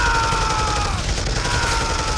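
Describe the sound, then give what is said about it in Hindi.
Machine gun fire rings out in battle as a soldier charges from a bunker spraying bullets: a dense, unbroken roar of rapid gunfire, harsh and loud throughout. “उन्होंने machine gun संभाली और गोलियों की बौछार करते हुए निकल पड़े बंकर से”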